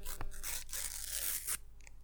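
Tearing open a pack: a sustained, rustling rip runs for about a second after a brief crinkle, ending abruptly, with no voices.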